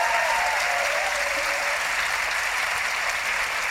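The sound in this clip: Audience applause at the Edinburgh Book Festival, welcoming an author to the stage: steady, dense clapping from a large crowd that stays loud and even for the whole stretch without fading.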